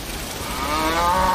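Cattle on a dry-country farm give one long, low, drawn-out moo that swells gradually in loudness, with no voices around it.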